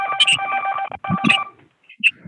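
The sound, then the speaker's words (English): Telephone keypad tones sound over a conference call line: a few short, tinny electronic beeps separated by brief gaps, with no talk over them. “Oh, that was a phone. Okay, well, it's a phone thing.”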